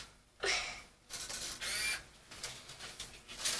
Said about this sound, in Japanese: はい、じゃあタイミング合わせの写真を撮ります